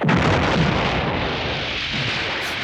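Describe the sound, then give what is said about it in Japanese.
A loud explosion echoes through a town, bursting suddenly at the start and then rolling on as a long, heavy rumble that thins out slowly. “突如、街に鳴り響く爆発音。”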